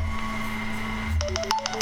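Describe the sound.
A mobile phone's electronic tones sound as a quick run of short beeps at varying pitches, cutting in over a steady hum near the end.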